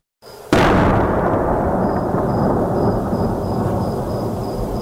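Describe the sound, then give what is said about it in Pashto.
A heavy boom of artillery cannon fire near a city in Helmand breaks out suddenly, then gives way to a loud, sustained rolling rumble that carries on to the end without fading much. “د ډي سي توپ لوی فایرونه ښار لړزوي”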